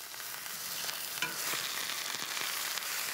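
A leg of meat sears hard in a hot pan outdoors with a loud, constant sizzle and crackle. Small spitting pops and a few scraping stir sounds break through the steady hiss.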